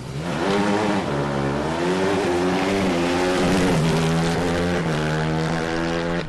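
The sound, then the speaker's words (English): Engine of an open-wheeled, Indy-style hybrid race car accelerating on gas, a loud continuous buzzing drone whose harmonics waver and shift in pitch throughout. “When it's time to hit the gas in these open-wheeled, Indy-style hybrids, some of them sound like this.”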